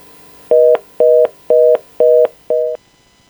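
Telephone line tone after a dropped call: five short, evenly spaced two-pitch beeps, each about a quarter second long, sounding alone and clearly against a quiet background.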